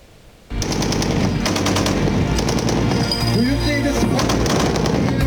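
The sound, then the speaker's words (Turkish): Rapid sustained gunfire from the Tolga close-range air defence system during test firing in Konya bursts in abruptly after a brief quiet start and then rattles on loudly and continuously. “Yerli ve milli imkanlarla geliştirilen yakın hava savunma sistemi Tolga Konya'daki test atışlarını başarıyla yaptı.”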